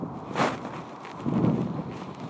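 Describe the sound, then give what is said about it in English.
Wind blowing across an open field at sunset, a steady rushing roar buffeting the microphone, with two stronger gusts swelling out of the continuous noise. “Now the wind is getting up.”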